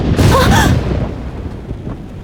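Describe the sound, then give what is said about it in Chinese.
Thunder from a lightning strike: a loud sudden burst that quickly fades into a low, lingering rumble. “突然一道闪电劈了下来，”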